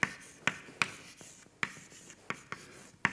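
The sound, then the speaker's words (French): Writing names on a board during a lecture makes a faint, irregular series of sharp taps and scratchy strokes, each mark clicking briefly against the surface with quiet pauses between them. “j'ai un peu peur d'écrire le nom des KPP, donc c'est Kolmogorov, Petrovski et Piskunov”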